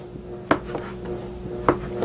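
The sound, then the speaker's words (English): Knife cutting bread into small chunks for croutons for a bread salad, with two distinct sharp strikes and a faint third tap over a steady low hum. “Then I'm going to cut it in half lengthwise. And then we're going to cut some nice little chunks. So basically, we're going to make some nice little croutons.”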